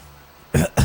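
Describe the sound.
Two harsh fake coughs, a voice imitating coughing and throat clearing, come as two short loud bursts in close succession after a quiet stretch.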